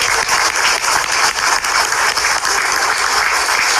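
Strong, steady applause from the audience at a ceremony as officials are introduced, a dense wash of clapping that holds at an even, loud level throughout.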